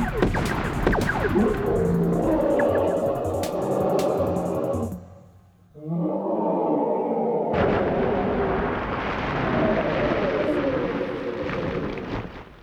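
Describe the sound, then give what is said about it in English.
A sci-fi blaster set to demolish and fired at a huge robot, producing loud, roaring, rumbling bursts of sustained booming in two long stretches separated by a brief lull. “I set my blaster to stun. That doesn't stop it. I set to demolish and let loose.”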